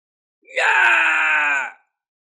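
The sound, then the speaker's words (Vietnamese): An agonized scream as a person is struck down: one loud, strained, sustained cry of about a second that cuts off abruptly and leaves silence. “Một tiếng hét thảm phát ra, một vùng hoa máu nở rộ, sau đó là sự yên tĩnh của tử vong.”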